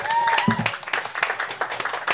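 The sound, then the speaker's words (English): Audience applause for the filmmakers at a science-fiction film festival panel in Boston: a dense, sustained wash of clapping that holds steady for about two seconds. “again, one more big round of applause for our filmmakers.”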